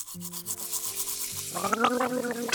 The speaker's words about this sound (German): Zähne putzen.